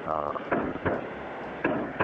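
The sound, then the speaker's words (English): Mortars launching in Iraq: four sharp, booming thuds spaced unevenly over a steady noisy background, with a brief voice at the start. “I think that sounds like they're launching mortars, basically.”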